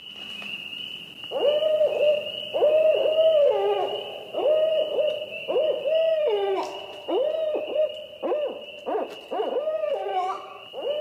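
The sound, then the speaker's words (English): A female barred owl hoots to other owls, giving many loud, rhythmic call phrases of rich, wavering notes over a steady high-pitched insect drone that runs throughout. “that is a female barred owl. She's calling out to other owls, saying something like, "Hey, buddy, where are you? I'm over here."”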